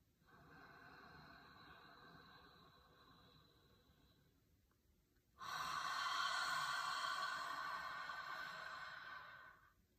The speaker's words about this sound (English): I'm going to do it again. I'm going to breathe out of my mouth this time.